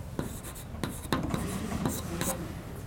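Writing on a board during a lecture: dry scratching strokes come in short bursts with a few sharper ticks, over a steady low background hum.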